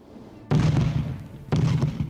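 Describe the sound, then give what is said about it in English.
Enemy artillery and tank fire along the war front in Ukraine: two heavy, loud blasts about a second apart, each striking sharply and then trailing off into a deep rumble. “Now what you can hear is enemy artillery. Tanks are firing, artillery is firing.”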